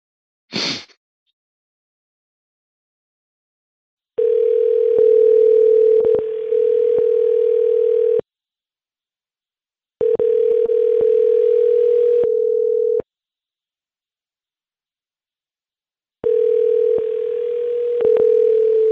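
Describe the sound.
Telephone ringback tone on a call to a number dialed from an old list: a brief click, then three long, steady, low-pitched rings, each lasting several seconds, separated by silent gaps.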